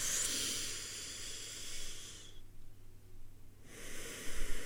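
A deep breath drawn in during a guided relaxation and healing exercise: a long, airy hiss of air, a brief near-silent gap, then another breathy rush. No one speaks.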